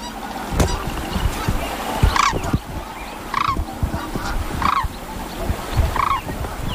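Sandhill cranes, a mated pair, give a series of rolling, trumpeting calls, repeated roughly every second or so over a steady, rough background noise.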